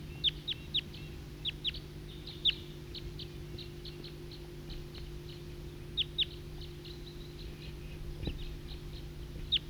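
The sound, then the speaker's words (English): Flock of wild birds calling: faint, scattered high chirps and tweets in short bursts and pairs, irregularly spaced over a steady low hum, with no talk. “It's recording flock of wild birds.”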